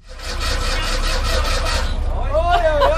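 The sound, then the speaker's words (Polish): An orange 1986 Fiat 126p with a 650 cc engine cranks but fails to start. The starter churns in a rhythmic whirring pulse for about two seconds, then a voice speaks. “Tylko najpierw sprawdźmy, czy maluch odpali.”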